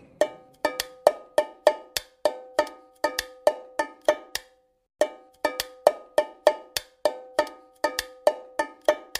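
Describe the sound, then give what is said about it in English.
Drumming on an empty aluminum can that once held peanuts: many bright, ringing metallic hits in a steady repeating rhythm, with one short pause midway. “And the answer is an aluminum can.”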